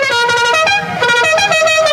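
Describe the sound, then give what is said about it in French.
A loud truck horn honking a musical, wedding-style tune, its bright tones jumping between several pitches in a continuous run of notes. “Non mais ça va, le mec avec son klaxon de mariage, ouais, tranquille. Ouais, c'est vrai, ça c'est un klaxon de routier, ça, hein?”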